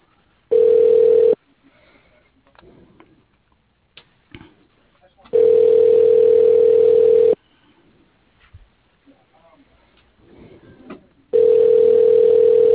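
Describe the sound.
Ringback tone on a phone line while a call is transferred: three long, steady, low-pitched tones separated by roughly four seconds of quiet, with faint voices and small noises in the gaps.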